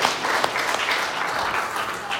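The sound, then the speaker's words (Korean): Church audience applauding at an Easter service, a dense, steady wash of clapping hands that holds evenly loud through the whole stretch without a break. “제대로 박수하겠습니다. 다시 한번 박수로 하나님 앞에 영광 올려드리겠습니다.”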